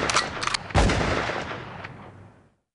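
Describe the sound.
Gunshots ring out, a couple of sharp cracks followed by a heavier blast whose rumbling tail fades away over about two seconds.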